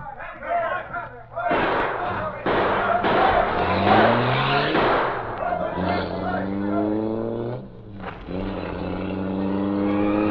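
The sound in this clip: A car engine revving hard as it drives off at speed, its pitch climbing repeatedly through gear changes, with brief voices at the start.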